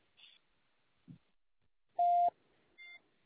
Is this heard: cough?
no